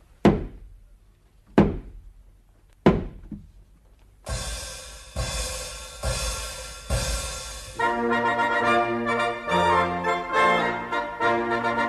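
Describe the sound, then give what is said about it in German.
Three heavy, separate thuds come from a person running against a door, each dying away quickly. Music then starts and carries on to the end. “Weil wir Vater und Mutter nicht heiraten können, muss ich zum dritten Mal gegen die Tür anrennen.”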